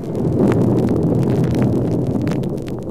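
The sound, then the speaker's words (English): A deep rumbling roar of ground shaking as Mount Palox erupts, an effect in a Planet of the Apes audio drama: steady, dense, low noise running unbroken for about three seconds with no clear peaks. “Am I dreaming or did the ground shake for a second? You weren't dreaming, and it was shaking. And look at that column of steam from Mount Palox.”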